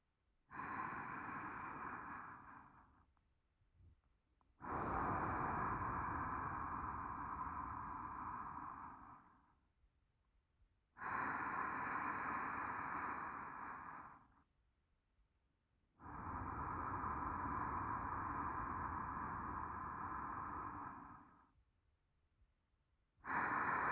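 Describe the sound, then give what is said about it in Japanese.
Slow, deep human breathing, each long drawn breath lasting several seconds, with brief pauses between. Four full breaths are heard and a fifth begins at the end, soft and steady with no talking. “そしてまずは深呼吸。一緒にね。”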